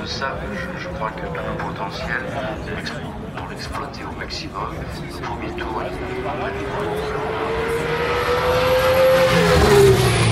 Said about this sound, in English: That's an Alpine.